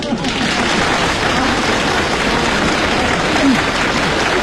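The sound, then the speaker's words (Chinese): Audience applause at a Beijing comic storytelling show, dense steady clapping that fills the whole stretch at a loud, even level with no pauses, with faint crowd voices mixed in. “先别鼓掌了，别鼓掌”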